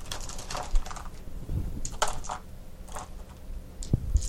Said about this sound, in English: I can't reach the dice tray, so I roll over here.